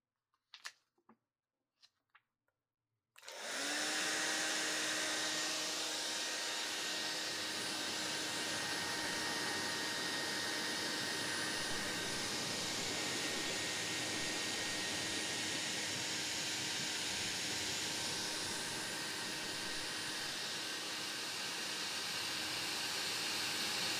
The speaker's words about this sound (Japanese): それでは、髪を乾かしちゃいますね。